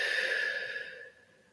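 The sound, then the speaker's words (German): A deep, slow breath during a guided breathing exercise, soft and airy, fading away over about a second. “Und atme mal ganz tief ein und wieder aus.”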